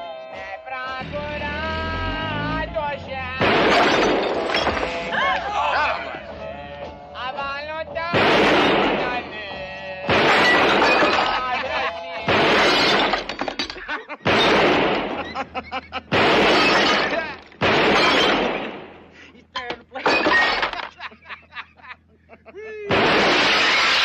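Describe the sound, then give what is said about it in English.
Gunfire from the 1975 film Hard Times, a man shooting up a bar and then his own reflection in the mirror. Many loud, sharp gunshot bursts are spaced a second or two apart, with voices heard near the start. “the very last thing he does is look at himself in the mirror and shoot it”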